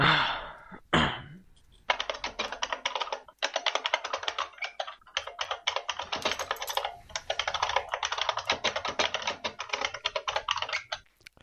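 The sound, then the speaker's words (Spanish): Rapid typing on a computer keyboard, a dense patter of quick clicks in bursts with a brief pause partway through. A few louder thumps come at the start. No talk is heard. “Pero, ¿se oye hoy el teclado?”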